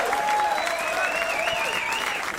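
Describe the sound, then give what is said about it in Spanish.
An audience applauds in a food competition, producing a continuous, fairly even spread of clapping that lasts a couple of seconds and tapers slightly at the close. “Un aplauso para Venezuela en esta competencia.”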